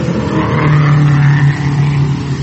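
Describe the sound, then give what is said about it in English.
Race car driving past on a track during an early auto race: a loud, sustained engine drone with a strong steady low hum and rough upper buzz, holding fairly even throughout, with no talk. “here's another car coming in”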